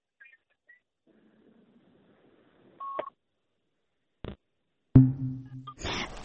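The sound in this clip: A telephone line beeps after a call disconnects: one short electronic beep, followed by a few sharp clicks and a burst of rougher noise.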